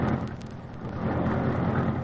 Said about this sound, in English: Britt Reed pressed a button. The great car roared into life.